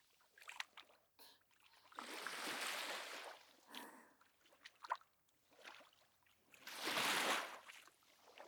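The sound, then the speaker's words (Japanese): Footsteps splash through shallow sea water while small waves wash in. The sound is faint, with soft scattered splashes and two longer rushing swells that partly cover the steps. “ジャパジャパジャパジャパ、海で歩く音はさざ波でかき消されちゃうけど”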